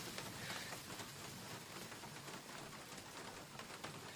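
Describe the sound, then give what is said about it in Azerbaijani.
Steady rain: a dense, even hiss of falling drops that continues unchanged from start to finish, with no clear onset. “Gör necə de yağış başladı birdenbire.”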